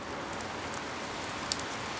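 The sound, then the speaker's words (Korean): Raindrops begin to fall in a soft, steady patter, with a couple of sharper drop hits near the end. The sound is quiet throughout. “동시에 그 위로 빗방울이 하나둘 떨어졌다.”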